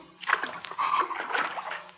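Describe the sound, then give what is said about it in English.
Faint, continuous splashing and sloshing as water covering a flooded basement floor is disturbed, a soft wash of watery noise lasting about two seconds. “Water. Basement floor covered with water.”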